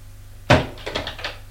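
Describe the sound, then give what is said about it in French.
A door is knocked on before someone enters a large furnished salon. A single sharp wooden thud is followed by a few lighter, quicker knocks. “Elle frappe à une porte et entre.”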